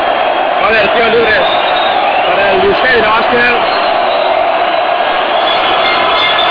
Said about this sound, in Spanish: Y cómo, cómo aprieta el, el público de la que nunca había visto esta temporada este, este aventazo.